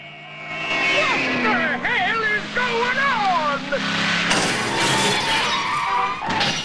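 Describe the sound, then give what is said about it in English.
A car drives through a showroom's shop window and makes a U-turn on the street. Loud smashing and crashing blend with continuous engine noise, and a sharp new burst of noise arrives partway through. “Bond drives through the shop window. Out on the street, he executes a U-turn.”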